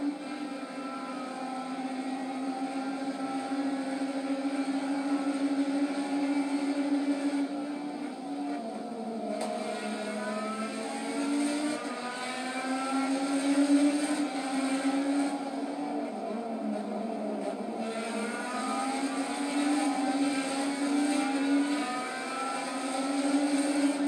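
Race car engine roars through a ride-along lap, a steady loud drone whose pitch rises and dips repeatedly as the car accelerates and eases, with no voices over it.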